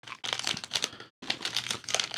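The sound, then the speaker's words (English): Wafer candy bar packaging crinkles in two crackly bursts of rustling, separated by a short pause. “Looks like a wafer candy bar from the packaging.”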